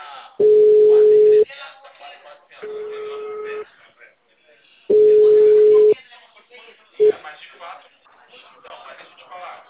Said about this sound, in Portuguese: Acabou de cair minha ligação.